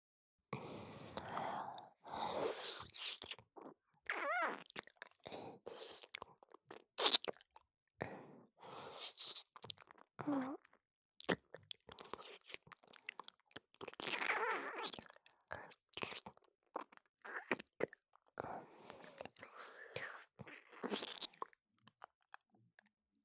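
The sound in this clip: Close, wet chewing and mouth sounds: many soft crunching and smacking bursts in an irregular rhythm, with occasional breathy sighs between them and no speech.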